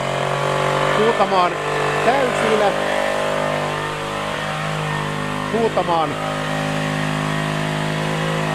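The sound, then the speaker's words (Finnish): A chainsaw engine running just after starting on the first pull: a continuous buzzing drone with a whiny harmonic edge, as people talk over it. “Sehän lähti kerrasta käyntiin. Nyt täytyy mennä vähän syrjemmälle. Eli tuo laitetaan tuo moottorisaha”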